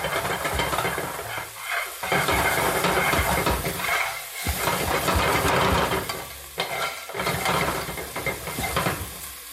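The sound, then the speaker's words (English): Aromatics stir-fry in a pan over intense heat on a home burner rather than a wok. A steady sizzle is broken by scraping stir strokes, with a few short dips where the stirring pauses. “So again, what you're doing here is you're, in Cantonese, we call this bao, which means to explode. So that's kind of what you're doing. You want to get a sort of like really intense heat on these aromatics, bring out their aroma.”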